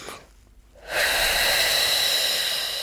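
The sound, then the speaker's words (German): A deep breath in for a breathing exercise, held, then let out: a short quiet inhale, a near-silent pause, then a long, loud, airy exhale that carries on to the end. “Also sehr tief einatmen, halten und dann”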